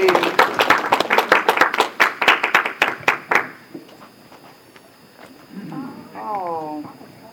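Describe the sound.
Audience applause for a boy called up on stage at a presentation: a loud burst of brisk clapping lasts about three and a half seconds and stops abruptly, followed by a quiet stretch and then a voice.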